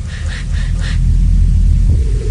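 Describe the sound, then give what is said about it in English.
Low thunder rumbles in a steady, continuous roll that holds at much the same loudness for the whole stretch, deep and heavy with no sharp crack. “Thunder growls through glistening teeth, exploring sonic seascapes. 1 low rumble.”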